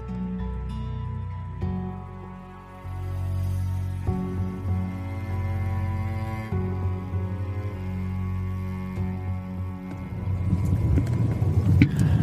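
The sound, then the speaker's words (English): A car driving down Salford Street in Gore gives a steady, low engine rumble with a constant hum. It grows louder and rougher toward the end. “Okay, so I am on location in Gore. I'm driving down Salford Street.”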